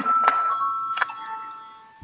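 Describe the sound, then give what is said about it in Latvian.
A voting bell rings in a parliament chamber as a steady, sustained electric tone that lasts the whole clip. Its pitch steps slightly lower partway through, with two faint clicks along the way. “Lūdzu zvanu.”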